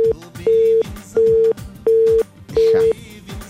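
A telephone busy tone after a call is cut off: steady low beeps repeat in an even on-off rhythm, four full pulses following a clipped one.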